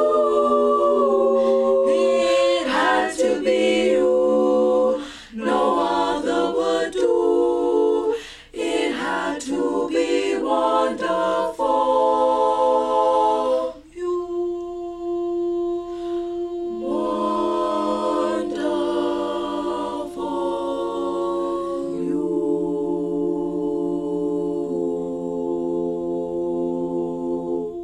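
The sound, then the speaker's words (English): Women's barbershop group singing close a cappella harmony: rich, full sustained chords that shift from note to note, loud throughout and closing on long held chords. “Ladies, I can't tell you how great that sound is. And Barbershop is so different than a cappella because, in my opinion, my humble opinion, I think it's such a full, full, rich sound.”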